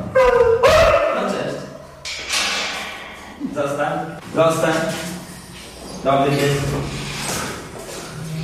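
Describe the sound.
A search-and-rescue dog barks and whimpers in several uneven bursts of high yips and whines, mixed with people talking to it.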